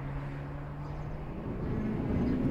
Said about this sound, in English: Sonny puts the window up, then starts the engine. The convertible drives off along a tree-lined road.